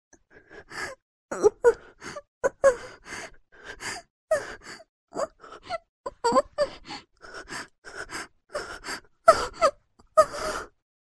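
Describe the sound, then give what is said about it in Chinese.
A woman moans and gasps through a ball gag: many short, muffled, breathy bursts in an uneven string, strained and voiced, with no clear words. “呻吟声从女警嘴巴里不断的发出，透过口球的阻塞，模糊的萦绕在周围的空气之中。”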